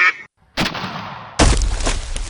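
A duck quacks in a few harsh, loud, noisy bursts, with a short silence between the first call and the rest.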